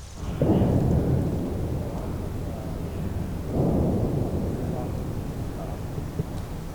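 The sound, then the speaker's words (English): Two deep, rumbling booms from military training explosions, heard from a distance, each swelling suddenly and then rolling on as a long low rumble. “Remember those training exercises from earlier? This is what it sounded like from a distance. Approximately the same distance as Light's property.”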